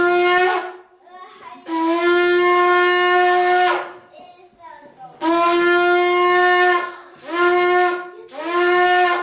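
A shofar is blown in several long, loud blasts, each a steady, brassy, buzzing horn tone at a constant pitch, separated by short pauses.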